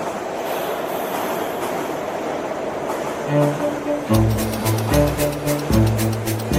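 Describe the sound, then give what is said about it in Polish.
A New York subway train rumbles with a steady low roar of running wheels, joined after about three seconds by louder, pulsing tonal hums that continue to the end. “Temu poplątaniu z pomieszaniem na powierzchni odpowiada plątanina podziemia, czyli metro.”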